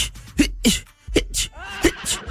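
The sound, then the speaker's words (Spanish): Someone fakes a series of sneezes, giving a few short, breathy bursts with a hissy burst of air at each one. They are fairly quiet and separated by brief pauses. “A mí me encanta estornudar y a mí me gustaría estornudar mucho como las personas que hacen así.”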